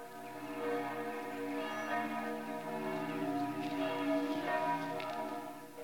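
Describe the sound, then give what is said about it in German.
Church bells of the Protestant town parish church in Hermannstadt ring in a continuous, overlapping peal, rich sustained tones layered evenly and fairly loud throughout. “Die Glocken der evangelischen Stadtpfarrkirche von Hermannstadt.”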